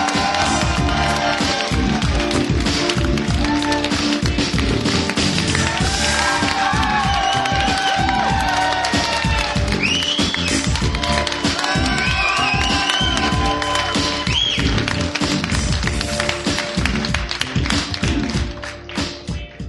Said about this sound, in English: Ladies and gentlemen, put your hands together and give it up.